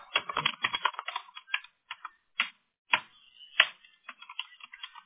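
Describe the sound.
Keyboard typing as someone enters text into a form: a rapid, irregular run of many sharp clicks with brief pauses between bursts, no voices.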